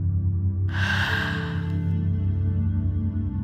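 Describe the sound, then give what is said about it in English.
One strong exhale after a deep breath: a breathy rush of air lasting about a second, over a steady low musical drone. “And take a deep breath in. Release with a strong out breath.”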